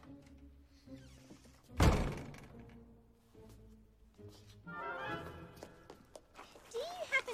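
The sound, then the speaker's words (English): A door is shut with one heavy, loud thud, followed by quieter shuffling and movement sounds. “The tutor closes the door in her face.”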